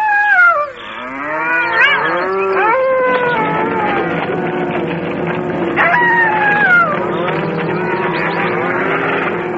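Cows mooing in a ravine: loud, drawn-out bellowing calls overlap one another, with several moos rising and falling in pitch throughout.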